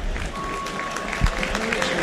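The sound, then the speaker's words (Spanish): Steady crowd applause at a professional football match as a player is substituted off, a dense, even clatter of clapping that holds throughout with one brief, louder thump partway through. “El otro que sale es Drews y aplaudido.”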